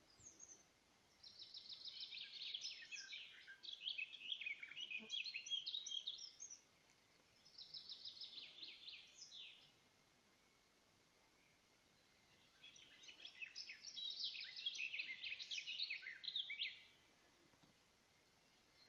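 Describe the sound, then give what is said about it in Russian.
A nightingale sings in stillness after the wind has died down. Three faint bursts of rapid, high warbles and trills come alone, separated by short pauses. “Наступила тишина, ветер кончился, и все стоит, замерло все, и слушает вместе с нами соловья.”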